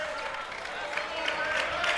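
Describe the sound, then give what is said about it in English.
Basketball crowd cheering and roaring, a faint, steady wash of noise that swells slightly toward the end, with no clear individual voices. “Here comes the crowd.”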